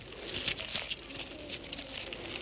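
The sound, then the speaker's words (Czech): Foil crinkling steadily as a chocolate Kinder egg is unwrapped, a faint, continuous papery rustle with a few sharper crackles near the start. “Čokoládový. Vypadá to jako vajíčko, že jo? Tak já to teda rozbalím.”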